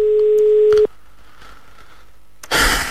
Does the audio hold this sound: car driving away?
no